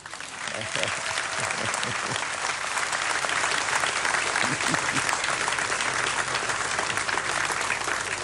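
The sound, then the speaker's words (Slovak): Sustained audience applause at a church ceremony marking a bishop's anniversary in office in Rožňava: dense, steady clapping that fills the whole clip at an even, strong level. “Prosím potlesk.”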